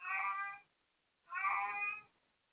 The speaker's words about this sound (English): if you hear my cat in the background, yeah, it's that time of the cycle for the cat.